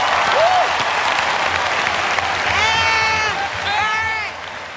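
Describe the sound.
Audience applause welcoming a comedian to a stand-up stage: dense, steady clapping that holds loud throughout, with a few whoops and cheers rising over it near the end.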